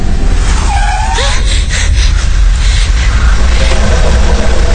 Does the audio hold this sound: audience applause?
no